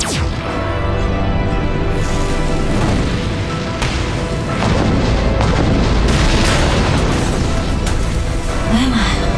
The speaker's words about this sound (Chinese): 现执行 B 计划，尝试释放所有禁锢的所有物质粒子，准备引爆暗物质粒子炸弹。三、二、一，火爆！